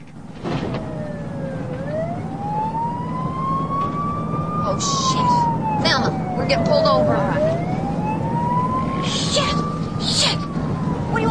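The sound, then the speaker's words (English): A state patrol police car siren comes up fast behind on a twisting road through parched country. The loud wail sweeps slowly up, down and up again over a steady road rumble. “A state patrol car is coming up fast behind them. Louise spots it in the mirror.”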